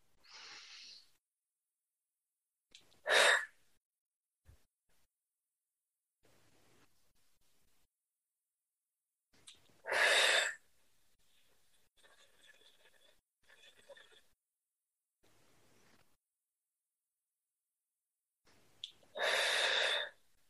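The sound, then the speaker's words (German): Three deep breaths drawn in through the nose during a guided relaxation with eyes closed. Each loud, rushing inhale is followed by a long pause, and fainter breathy sounds fall between them. “während du in diesem Lichtschutzkreis dich wohlfühlst, geschützt fühlst, die Augen geschlossen hast, atme bitte dreimal ganz, ganz tief über die Nase ein”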